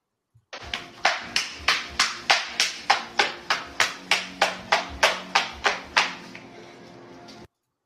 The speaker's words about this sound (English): Somebody is just giving a round of applause, you know. I think they do this probably at major sporting events.